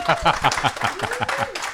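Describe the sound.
Studio audience applause on a radio show, a quick run of rhythmic clapping with a voice speaking over it.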